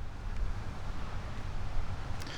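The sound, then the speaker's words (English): Wind gusts buffet the microphone outdoors near a forest boardwalk, a steady roaring low rumble with broad hiss that swells slightly and holds throughout, with no voices. “Now I'm going back into the forest to get out of this wind. This is terrible.”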